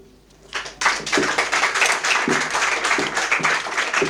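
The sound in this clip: An audience applauds after a poem at a poetry reading. Dense, steady clapping starts after a short quiet moment and continues at an even level to the end.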